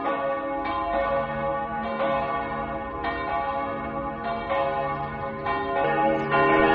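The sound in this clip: Tower bells ring out a pop song melody from a tall tower in Stockholm: many clear, resonant pitched strikes follow one another in a tune, each leaving a long overlapping hum. The bells are loud and no one talks.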